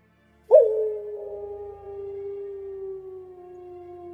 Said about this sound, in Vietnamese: Có tiếng con sói chu một hồi dài từ trong rừng xa vẳng lại. Tiếng sói chu giữa đêm nghe lạnh đến rợn cả rừng khuya.